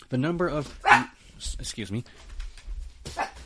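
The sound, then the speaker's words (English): A dog barks a few sharp times around a person who keeps talking. The barks are brief and fairly loud, rising above the speech. “sorry about the barking”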